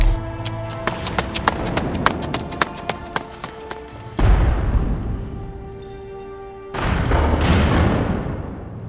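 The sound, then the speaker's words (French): A pedestal collapsing in a video game: a run of sharp clacking taps, then a heavy rumbling crash that fades, followed by a second loud rumbling burst. “C'est rien. Le piédestal s'est juste écroulé. J'ai cru que ça allait exploser.”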